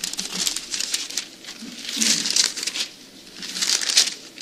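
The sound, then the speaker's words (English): Pages of a Bible rustle as they are flipped back to First Samuel chapter 17. The papery crinkling and brushing swells and fades in several waves at moderate loudness. “Flip back to chapter 17 with me. Let's go back to 1 Samuel 17.”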